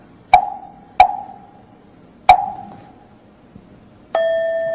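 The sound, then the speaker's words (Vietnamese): A wooden fish and a Buddhist temple bell are struck in southern Vietnamese style: three sharp, resonant strikes at uneven intervals, each decaying quickly, then a single struck bell tone that rings on steadily with layered overtones. “Thì ở đây là mình khai mỏ chuông theo kiểu miền Nam đó”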